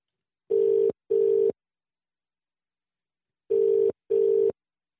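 Ringback tone of a telephone call that goes unanswered: two double rings, each a pair of short, steady low-pitched tone bursts, separated by a long silent gap. No voices are heard.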